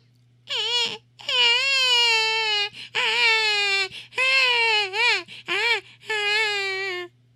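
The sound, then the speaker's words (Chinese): A baby crying in a children's story: a string of loud, high wailing cries with wavering pitch, broken by short gasping pauses, over a low steady hum. “可是，小奈想了这么多办法逗弟弟笑，优太还是一个劲儿的哭。”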